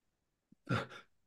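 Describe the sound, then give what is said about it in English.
A single short sneeze, heard as one faint, breathy burst that quickly trails off, alone in near silence. “The dizzy heights of talking about sort of major European continental football in Germany has already got you coming out and sneezing.”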